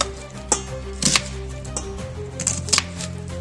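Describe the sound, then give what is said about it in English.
A knife slices a quarter of an onion with a few crisp, irregularly spaced blade taps on a cutting board over a steady low tonal background. “I'm also using 1/4 of an onion. Let's just go like this and then make slices.”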